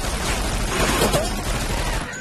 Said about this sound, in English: she just shot at you with her eyes closed